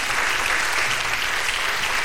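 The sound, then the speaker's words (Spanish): A church audience applauds the pastor during a Spanish-language sermon, with dense, steady clapping that holds at an even level for the whole stretch. “¿Le puede dar palmas al pastor de los pastores?”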